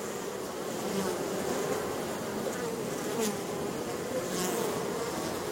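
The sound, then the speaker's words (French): Honeybee swarm vibrating and buzzing loudly, a dense, continuous drone of many wings that holds steady and loud throughout, with no voices. “L'ensemble de l'essaim, qui a assisté pendant plusieurs heures ou plusieurs jours à toutes les étapes de la délibération des éclaireuses, se met alors à vibrer de plus en plus fort. C'est l'essaim entier qui vibre”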